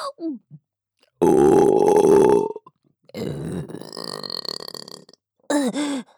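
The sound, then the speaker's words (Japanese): Loud human burps, one long drawn-out belch followed by another rough, extended one and a short final burp, with brief vocal noises in the gaps. “ゲップをご主人様にも聞かせたくて、ゲップしちゃうたびに感じちゃいます。”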